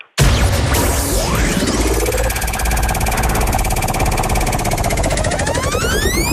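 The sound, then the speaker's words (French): A prize wheel being spun at a live game, heard as a loud, dense, continuous rattling clatter that runs unbroken for several seconds. “Il y a la roue de la Force Basque à côté de moi. Oui. On va la tourner tous ensemble.”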